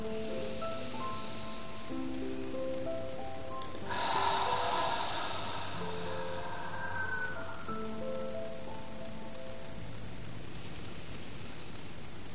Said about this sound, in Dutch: Adem diep in.